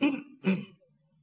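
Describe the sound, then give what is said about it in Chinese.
Soft cough or throat-clearing from someone standing outside a lady's bedroom door at night in a courtyard garden: two short, throaty bursts, the second slightly stronger, followed by near silence. “赵玉轻轻的咳嗽了一声”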